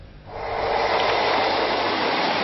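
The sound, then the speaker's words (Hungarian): A train passes on the rail line out to Ferihegy airport: a broad, steady rushing roar that swells quickly after a quieter start and stays loud to the end. “Ez a vonat elment.”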